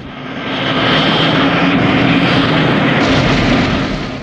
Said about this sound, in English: The plane takes off with John hanging on for dear life beneath it.